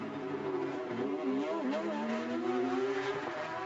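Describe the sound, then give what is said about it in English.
Engine roar of a 4-litre Porsche flat-six race car at a Carrera Cup street race in Toronto, a continuous, loud, buzzy exhaust note whose pitch shifts up and down throughout. “such distinctive exhaust notes from these flat six engines, one of the truly great wonders of the automotive world, the 4 litre Porsche flat six.”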